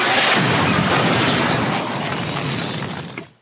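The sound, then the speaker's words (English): A bomb explosion hits a home as a loud, dense roar. The roar holds steady for about three seconds, eases slightly, then dies away abruptly at the end. “A big bomb bashed into his home at the end.”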